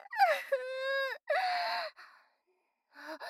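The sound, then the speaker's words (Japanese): A woman crying: high, drawn-out wailing sobs that break and resume a few times, with whimpering and catching gasps between the louder cries. “それから私は10分弱泣き続けました。”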